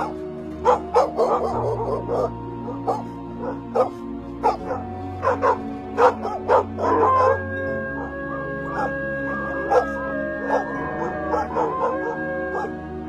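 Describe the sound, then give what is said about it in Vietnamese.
A pack of dogs barks as if giving chase, with many sharp, rapid barks and yips and some whining in a steady, urgent rhythm, over a low droning tone. “Đằng sau là tiếng của bầy chó cứ thế sủa lên như đang truy đuổi.”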